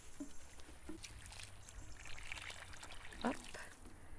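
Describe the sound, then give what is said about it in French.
Water trickles faintly from a watering can onto freshly planted lettuce and vegetable plants in a garden, a soft, uneven pour with a brief voice near the end. “commencer par arroser tout ça, ce qui reste en tout cas. Regarde.”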